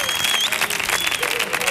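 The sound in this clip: Live show audience clapping and cheering loudly, a dense, continuous burst of applause with shouts mixed in, steady for its short length.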